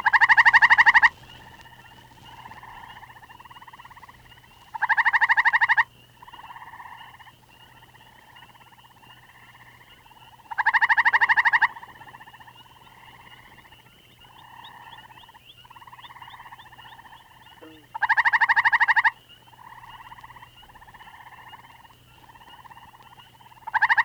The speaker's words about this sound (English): And now, since the evening is warm enough, a common tree toad gives his much louder trill.